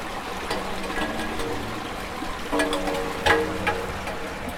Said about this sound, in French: on mesure des débits d'eau ici dans cet égout